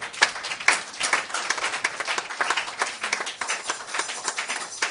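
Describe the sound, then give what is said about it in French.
A church audience claps in acclaim of the Lord during a worship service, a steady, dense patter of many hands that continues throughout. “Est-ce qu'on peut acclamer le Seigneur?”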